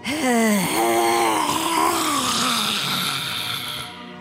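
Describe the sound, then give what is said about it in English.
A long voiced exhale during a breathing exercise, a moaning sigh that holds for about four seconds and sinks slightly in pitch toward the end. “All right. Two vocal breaths, one cleansing. Eyes open. Breathe in. Vocal breath.”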